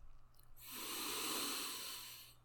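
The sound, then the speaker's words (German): A single long, deep breath during a guided relaxation exercise, soft and airy, rising into a steady breathy hiss that holds for nearly two seconds before fading out; quiet overall. “Zur Unterstützung werden wir am Anfang dreimal tief durch die Nase in den Bauch einatmen und durch den offenen Mund wieder ausatmen.”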